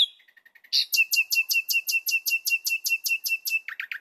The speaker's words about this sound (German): Bei der Amsel wirkt es auf uns durch diesen Flötenteil, wo wir auch diese feinen Unterschiede der Elemente oft nicht so gut mit unserem Gehör auflösen können, wirkt es eher ein bisschen improvisierter